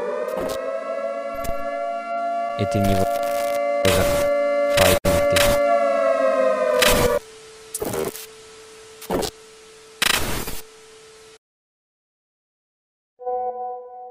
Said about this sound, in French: Ceci n'est pas un exercice. Une alerte à la population est en cours.